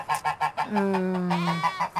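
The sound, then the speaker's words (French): An aggressive goose honks in a quick run of short, clipped honks, breaks into one drawn-out, nasal call lasting nearly a second, then returns to short rhythmic honks. “Ça, c'est Saruman, la méchante oie, enfin, mais pas avec tous. Il a ses têtes,”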